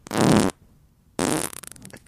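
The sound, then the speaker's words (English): A fart in two distinct bursts: first a long, low, rumbling blast, then after a short pause a second burst that breaks into rapid sputtering pops before fading. “My fart, dude. That's my fart.”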